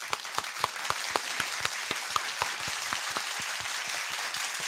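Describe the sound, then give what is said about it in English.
Applause from a live studio audience, used as an effect: dense, steady clapping with sharper individual claps standing out, holding at an even level throughout. “I bet you didn't know I was actually recording this with you in front of a live studio audience.”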